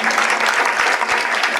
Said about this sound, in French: Je pense que vous pouvez l'applaudir.